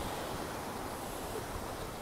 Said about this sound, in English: I'm wondering if you can hear, well, perhaps kids playing, but also the sea in the background.